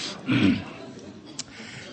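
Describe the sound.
A speaker clears his throat once: a short, rough, low burst that fades into quiet, with a faint click shortly after.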